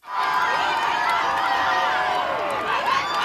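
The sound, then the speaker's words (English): A crowd lining the streets of Madrid to welcome Pope Leo makes a dense, steady roar of cheering and mingled voices, with no break for the whole few seconds. “thousands of people line the streets of Madrid to welcome Pope Leo.”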